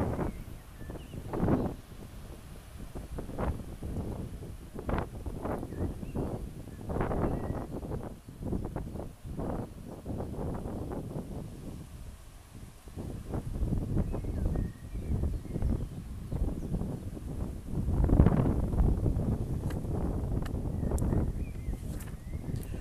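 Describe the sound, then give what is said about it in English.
Wind blows through trees and a field of young, newly growing crops, a continuous low rushing that swells and eases in uneven gusts. The strongest surge comes near the end. “I can hear the wind blowing through the trees which are above and behind me just now. I can also hear the wind in the crops which are beginning to grow in the”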